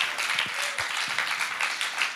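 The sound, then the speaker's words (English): A church audience applauds to welcome first-time visitors, a faint, dense patter of many hands clapping that runs steadily throughout. “Maybe we can just give it up for everyone who it's their first time today.”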